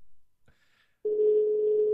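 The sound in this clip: Ringing tone on an outgoing telephone call: after a moment of faint, near-silent line noise, one steady, even electronic tone sounds for about a second and continues to the end, with no voices.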